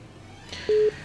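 A telephone line gives a single short, steady, low-pitched beep signaling an incoming call, sounding alone.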